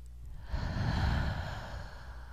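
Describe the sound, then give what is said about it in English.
A deep breath drawn in during a guided relaxation: one soft, steady, airy inhale lasting about two seconds, quiet and alone with no talking. “maybe wiggling your fingers and toes, taking another deep breath in.”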